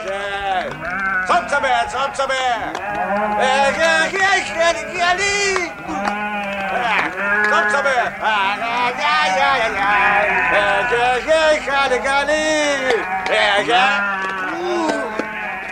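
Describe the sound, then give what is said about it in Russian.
Twenty rams bleating as they are driven into a yard, with many overlapping bleats that go on without a break, loud and wavering in pitch from start to finish. “Балбес загоняет во двор дяди Нины 20 баранов.”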